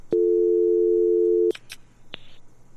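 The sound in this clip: A steady telephone dial tone holds for about a second and a half after a dropped call, then cuts off into a few sharp clicks and brief handset noises.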